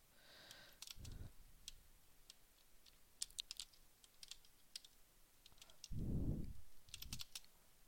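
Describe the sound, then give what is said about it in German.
Computer keyboard keys, including the space bar, pressed during a video game: light, sharp clicks in irregular scattered bursts throughout, fairly faint, with no talk. “Ich drücke halt aus Versehen Leertaste, ist der Witz.”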